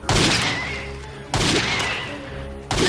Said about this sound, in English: And he shoots me with his gun.